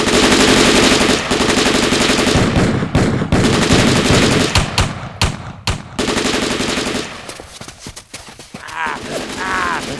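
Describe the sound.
Loud gunfire rattles in dense, rapid automatic bursts, continuous at first and then breaking into sharp separate cracks that thin out and quieten, with a voice briefly heard near the end.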